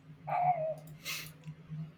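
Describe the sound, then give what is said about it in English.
A small Pomeranian dog gives a single short, high yelp that slides downward in pitch. It is fairly faint, with a steady low hum running underneath and a brief hissy burst after it. “that dog is going ham. That's a different dog. That's a new neighbor's dog that has a little Pomeranian. Yeah, I was gonna say the dog sounds.”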